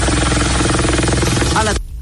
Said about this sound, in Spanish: Ahí se ve el helicóptero. Va bajando, tratando de acuacitar.